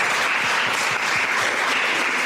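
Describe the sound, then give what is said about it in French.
Audience applause from a live talk after a question session: a dense, steady wash of many hands clapping, loud and continuous throughout with no voices over it. “J'aimerais qu'on s'applaudisse pour cette première session.”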